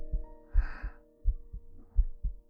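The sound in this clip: A steady heartbeat of low, muffled double thumps repeating in an even rhythm over a faint constant hum, with a soft brief swell of noise near the start.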